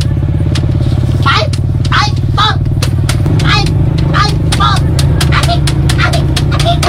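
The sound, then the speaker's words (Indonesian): Motorcycle engine running as the rider speeds it up, a loud steady low drone that steps up slightly in pitch partway through, with sharp crackling clicks scattered across it. “Eh, pakusgan ko pagpadagan ini ng akong motor.”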